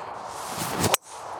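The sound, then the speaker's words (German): A golf club strikes the ball on a tee shot from a slightly elevated tee on hole 8: a brief rising swish ends in one sharp, crisp impact, followed by quiet. “Jetzt hast du einen wunderschönen Abschlag vor dir auf Loch Nummer 8. Leicht erhöht der Abschlag.”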